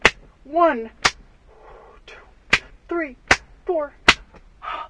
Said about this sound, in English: 7 open-handed slaps to your breast.